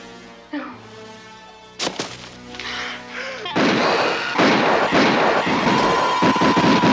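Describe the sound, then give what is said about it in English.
Gunfire erupts: a few isolated sharp bangs give way to a dense, continuous volley of loud, crackling shots that fills the second half. “Stop firing! Stop firing!”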